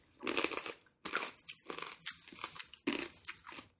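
Crisp crunching of chili picante corn nuts being bitten and chewed: a few quiet bursts of brittle cracking, each followed by shorter grinding chews, with no talk.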